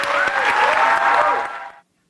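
An audience claps in a played video clip, a dense, steady burst of applause that holds briefly and then tapers off and cuts out before two seconds.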